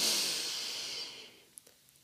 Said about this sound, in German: Und atme ganz tief ein